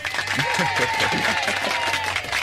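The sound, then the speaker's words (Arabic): Applause plays as a sound effect to reward a correct guess in a film-theme music quiz. It is a dense, steady crowd clapping that stays even throughout. “برافو عليك، وهيدي بيطلع لك زقفة.”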